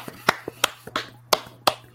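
Hand clapping at the close of a late-night live show: a few sharp, separate claps at an uneven pace, some louder than others, over a faint steady low hum.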